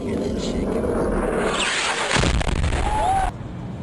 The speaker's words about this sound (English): It's a U.S. missile that blows up right... This missile is designed to... It looks like it hits the ground